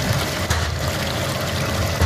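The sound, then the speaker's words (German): A rotating brush machine washes pumpkins under running water, giving a steady, dense rush of splashing and churning water with no clear breaks throughout. “Ich wasche jetzt alle Kürbisse, die vom Feld kommen. Die werden hier, ich sag mal, durch diese rotierende Bürstenmaschine, die mit Wasser beaufschlagt wird, gewaschen.”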